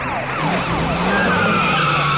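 Tyres squeal as a fleeing suspect's car spins out during a police chase, a sustained high screech under a wailing siren that sweeps up and down throughout.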